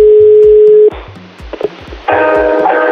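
A telephone call being dialed: a steady dial tone, a few short key beeps, then a buzzy ringback tone, all over a pulsing low beat.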